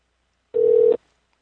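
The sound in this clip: A single short electronic telephone tone sounds as a call is placed to a taco place. It is one steady, mid-pitched beep lasting under half a second, alone, with no voices.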